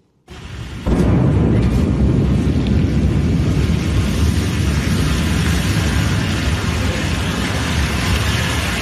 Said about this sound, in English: A Blue Origin rocket has exploded in a fireball during a late-night US launch pad test, shaking nearby homes. Here's that moment, recorded by a nearby witness.